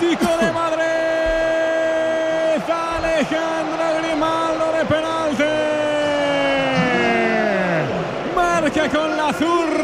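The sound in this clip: A stadium crowd roars after a penalty goal in a Madrid football derby, a dense, sustained roar running under a commentator's loud, excited shouting throughout.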